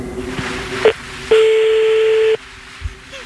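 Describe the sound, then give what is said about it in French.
Telephone tones from a call being placed again: a short electronic beep, then a steady, clean mid-pitched tone that holds for about a second before cutting off abruptly, with quiet background noise between. “Bon, attends, on rappelle, d'accord ?”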